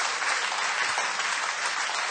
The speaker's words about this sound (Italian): Facciamo un applauso al Signore.